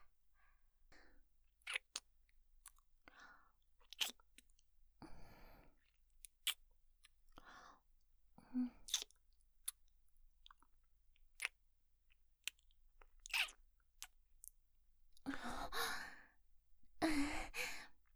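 Faint, wet kissing sounds: many soft lip smacks and clicks spaced irregularly, mixed with quiet sighing breaths and a few longer, breathier bursts near the end.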